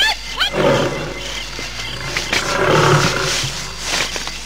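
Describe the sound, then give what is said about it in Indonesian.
A male tiger roaring: a deep, rough, raspy roar that swells and holds across the whole clip, loud and growling, with no talk. “Kau harimau jantan. Rupanya mau main-main denganku.”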